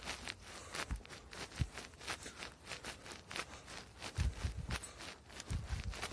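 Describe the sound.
Footsteps of a hiker walking outdoors wearing a vest: faint, irregular steps crunching softly at a steady walking pace, with no voices.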